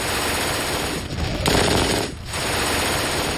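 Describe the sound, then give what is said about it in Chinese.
MG42 general-purpose machine gun, belt-fed, 7.92 mm, firing at a very high rate: a dense, loud, continuous roar of shots, broken by two brief pauses. “MG42 式通用机枪，它有着可怕的射速，使用弹药带，口径是7.92毫米，”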